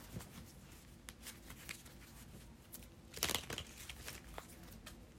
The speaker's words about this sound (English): I'm going to get one more card.